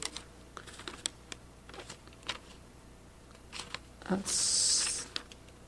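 Typing on a computer keyboard: quiet, irregular key clicks come in short bursts separated by pauses.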